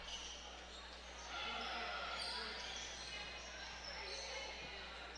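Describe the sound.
A basketball is dribbled on court during a women's game, with faint repeated bounces under steady background noise and talk.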